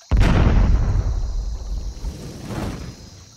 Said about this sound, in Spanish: Atilio no había terminado de decirlo cuando vi una gran pelota de fuego que echó un chorro de candela hacia los lados.